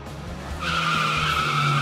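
Tyres skid under a driving car: a low engine rumble is joined partway through by a steady, high-pitched squeal that holds to the end.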